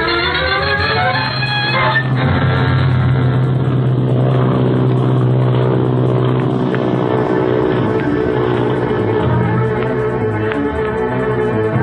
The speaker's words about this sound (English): Rev up your airspeed